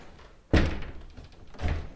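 A large wooden door slams shut in a unit of a Victorian house, giving a few heavy, booming thuds, each ending in a brief low rumble.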